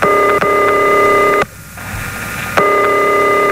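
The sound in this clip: Electronic telephone ringing tone on a call that goes unanswered: a loud, steady buzzing tone breaks off for about a second, then resumes. No talk.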